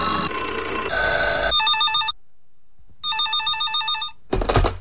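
A telephone rings in a radio studio: the newsroom line sounds in two bursts of bright electronic trilling separated by a short silence, after other sounds at the start.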